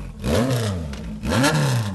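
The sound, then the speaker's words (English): Motorcycle engine revving hard during a burnout with the bike held in place: two loud, swelling revs, each climbing and then falling in pitch, with no other sounds. “He waits a bit for a crowd to gather, then hugs the throttle.”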